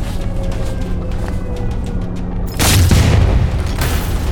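A gunshot bursts out as a single loud boom over a steady rumbling background, then a broad, roaring wash of noise holds on after it.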